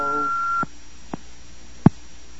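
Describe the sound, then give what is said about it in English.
Single steady electronic beep on a conference call line, lasting about half a second before cutting off, followed by a couple of faint, brief clicks. “There's like a beep that comes in occasionally.”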